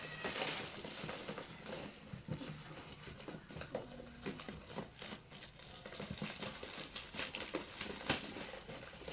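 Plastic wrapping crinkles faintly while a package of pen accessories is unboxed, with many irregular rustles and small crackles throughout.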